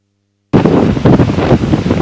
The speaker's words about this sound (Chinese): 连日来，风暴天气席卷美国东北部海滨地区。